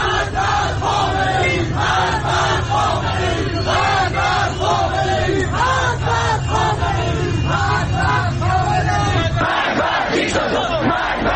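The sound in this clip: Street crowds in Iran chant death to Khamenei. A dense mass of voices repeats the slogan in a loud, rhythmic, continuous chant, and the pattern shifts just before the end.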